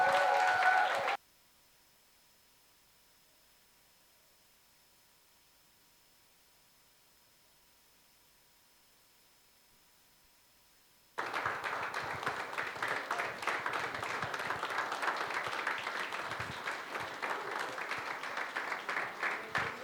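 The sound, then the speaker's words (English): Congregation applauding to welcome a pastor at a church service: after a brief sound and a long silence, dense, steady clapping starts abruptly and keeps going at an even loudness to the end. “Let us put our hands together as we welcome the man of God, our gift of God, Pastor Edgar Michaels.”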